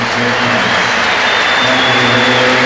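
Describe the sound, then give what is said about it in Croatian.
Crowd applause at a match as a player is substituted off near the end: a loud, steady, dense wash of clapping that stays even throughout. “a ide vani Šotiček s brojem 23, dakle pljesak za Šotičeka”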